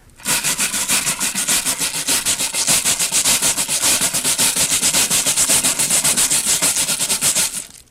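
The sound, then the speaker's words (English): Stiff wire brush scraped across a sheet of sandpaper to imitate a train, making a loud, steady run of many fast, evenly spaced rasping strokes that chug like wheels on track, with no voices. “A wire brush across a sheet of sandpaper.”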